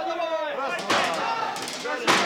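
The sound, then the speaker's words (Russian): A door is broken down with heavy slamming blows, two forceful impacts about a second apart, amid people talking. “Дверь ломай, давай, давай. Ломай дверь, брат.”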